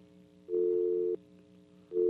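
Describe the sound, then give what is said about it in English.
A telephone rings with a steady electronic tone in two bursts separated by a short silence; the second burst is cut off at the end. “I don't know if that's your phone or my phone.”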